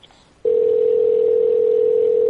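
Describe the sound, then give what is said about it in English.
A telephone dial tone while placing a call to the UK: a short near-silent moment, then a single steady, loud, unbroken tone that holds to the end, with no voices. “I'll find a phone number for UK.”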